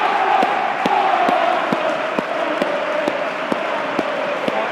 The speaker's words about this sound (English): Oh, this is the applause for the Bolton disaster.